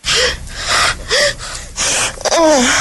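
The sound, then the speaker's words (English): A woman gasps and catches her breath in a quick series of sharp, breathy intakes, some of them voiced with a brief rising whimper. The gasps are loud and close together, with no talk. “Right catching her breath there.”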